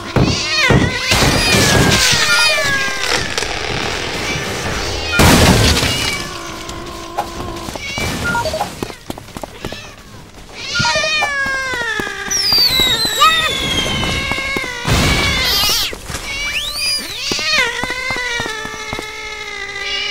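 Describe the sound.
Many cats meow and caterwaul in overlapping, wavering cries of varied pitch, loud and continuous, broken by a few sharp crackling bangs.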